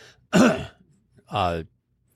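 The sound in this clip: Throat clearing comes in two short bursts separated by a brief quiet gap. The first is a rough, gravelly rasp, and the second is longer and more voiced, like a low hum.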